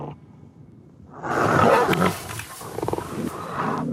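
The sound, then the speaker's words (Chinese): Lions feeding on a wildebeest growl and snarl in a loud, rough, sustained rumble. It starts after about a second of near quiet, then continues with choppy bursts of deep growling. “草原之王狼吞虎咽地享受牛羚大餐，”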